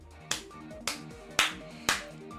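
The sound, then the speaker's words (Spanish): Hand clapping in a guessing game: four single, sharp claps at a fairly even, unhurried pace, each crisp snap standing clearly above a quiet background. “No, vos aplaudí primero y yo adivino para quién es ese aplauso, ¿te parece?”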